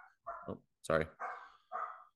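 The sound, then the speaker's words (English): A dog barks a few times in short, sharp bursts, faint and separated by brief pauses. “dog going crazy again.”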